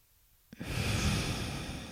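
A slow exhale during a guided breathing exercise: after half a second of near silence, a steady, breathy rush of air begins abruptly and holds at an even level to the end.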